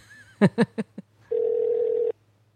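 A telephone call ringing out: one steady, mid-pitched ringback tone lasting under a second, preceded by a few short, clipped bursts of sound.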